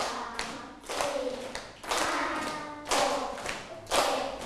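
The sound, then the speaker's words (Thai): A group clapping along to counting: about five bursts of hand claps land roughly a second apart in a steady beat, each a short, sharp cluster. “อีกครั้งหนึ่งขอนับช้ากว่านี้นะคะเพื่อนๆปรบไม่ทันแล้วเอาใหม่นะคะ”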